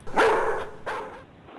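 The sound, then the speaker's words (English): Two sharp barks from a dog, the first loud and the second a little weaker, each followed by a short ringing tail. “That dog just keeps barking, and I'm not sure what to make of it.”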